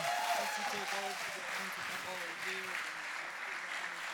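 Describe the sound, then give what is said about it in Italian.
Audience applause welcoming a preacher at a Sunday church gathering: a continuous wash of clapping at even loudness, with a voice talking over it. “accoglierlo con un applauso un po' più forte e sentito”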